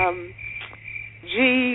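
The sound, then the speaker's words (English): Crickets chirping in a steady, high-pitched trill with soft pulsing, fairly clear and sustained, with brief tonal fragments at the start and end. “here we have the crickets, right?”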